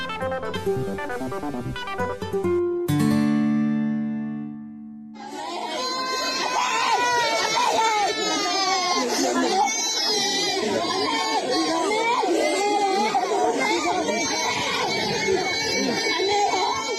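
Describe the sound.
Villagers in Let Htoke Taw village, Sagaing Region, wailing and crying over dead family members. Several loud, overlapping anguished voices sob and cry out after a few seconds of opening musical tones.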